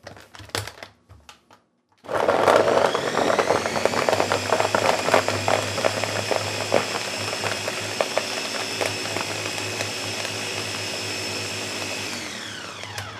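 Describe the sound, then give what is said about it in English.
A blender whirring frozen pineapple: after a few short knocks and a pause, the motor starts abruptly into a loud, steady, high whine with a rattling grind, running for about ten seconds before cutting off. “going to kind of scrape down the sides of the blender a bit. And then I'm going to add some more frozen pineapple into the mix. Gonna whir that thing up again.”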